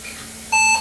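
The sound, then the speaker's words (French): A single bright electronic beep from an old 1992–93 computer running Windows 95 at power-on, a steady tone lasting about a third of a second over faint background hiss. “Un bip.”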